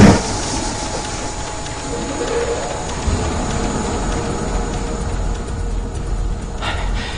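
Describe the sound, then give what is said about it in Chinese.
A tunnel boring machine's cutterhead turns with a dense, steady mechanical rumble and grinding roar that holds at an even level throughout, with faint higher rattles on top. “加大刀盘转速，注意参数变化，注意参数变化。”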